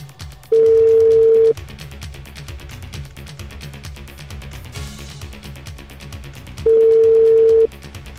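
Telephone ringback tones sound while a guest is being called on a radio show: two steady, even one-second tones with a long pause between them, over a low continuous background.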